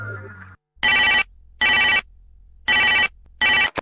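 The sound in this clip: A telephone rings in four bright electronic bursts, grouped as two double rings with short silences between them. A brief snatch of other sound comes before the first ring.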